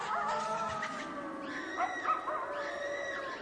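Wolf howling in the mountains: long, wavering tonal calls with layered harmonics, joined later by short, higher chirping calls, fairly quiet and without talk.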